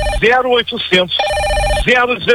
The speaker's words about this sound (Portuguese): Ó, já estão ligando.